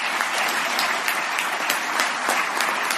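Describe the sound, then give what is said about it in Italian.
Audience applause at an evening gathering held by a youth centre: loud, dense, steady clapping from many hands that carries on without a break for the whole stretch. “E quindi io vi chiedo un grande applauso per il centro giovanile San Vendemiale di San Vendemiano, che ha voluto questa serata, quindi un applauso per voi”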